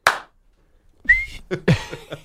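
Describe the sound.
A person's voice imitates a referee's whistle with one brief, high, slightly rising whistled note, surrounded by breathy vocal noises.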